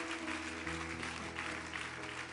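A church audience applauds in praise of the Holy Spirit during a French-language sermon, an even rush of many hands clapping with held low musical tones running underneath, keeping a steady level from start to finish.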